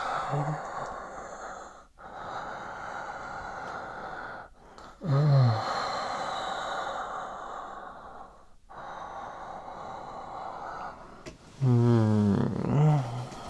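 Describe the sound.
Heavy breathing, long breathy inhales and exhales separated by short pauses, broken by a few voiced moaning sighs, the loudest of them near the end.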